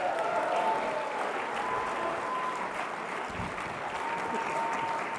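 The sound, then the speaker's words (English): Steady audience applause welcomes guests as they come up on stage, a dense, continuous wash of clapping that holds at an even level for about five seconds with no clear voices. “So let's give them a great welcome as they come up now.”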